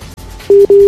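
Telephone busy tone after a dropped call: a steady mid-pitched electronic beep sounding in two clear bursts separated by a short gap, with no voices over it.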